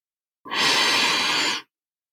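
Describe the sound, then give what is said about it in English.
A person takes a single deep breath, a smooth, airy rush of about one second that starts abruptly and stops cleanly, set against silence. “Okay, take a breath.”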